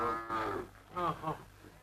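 Cattle mooing in a village as they are driven along: one drawn-out, harmonic-rich low moo, followed by a couple of shorter lowing calls that fade out.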